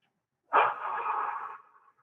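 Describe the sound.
One gentle breath, a soft airy hiss that begins suddenly, holds steady for about a second, then trails off into silence. No voices are heard.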